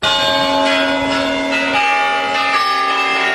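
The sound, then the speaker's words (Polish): Kremlin clock chimes ring out in Red Square: loud, bell-like tones with long ringing sustain, and a few fresh strikes layering new notes over the decaying resonance. “Jak Państwo słyszą, prosto z Placu Czerwonego, gdy biją kremlowskie kuranty”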